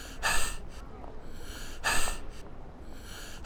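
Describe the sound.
Heavy panting from a winded police officer who has just run up, heard as a few loud, breathy gasps spaced in a slow rhythm, with quieter breathing between them.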